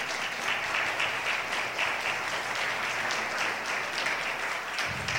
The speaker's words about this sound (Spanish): Bueno, dale un aplauso, un fuerte aplauso al Señor.